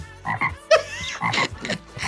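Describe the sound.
Frog croaking in a run of short, raspy, ribbit-like calls spread over about two seconds, with no talk.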